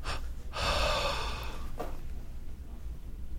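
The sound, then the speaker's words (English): Deep breathing in a guided breathing exercise: a long, loud, airy intake of breath lasting about a second, followed by a shorter breath, over a steady low background hum. “Exhale with the sound. Inhale. Hold, exhale.”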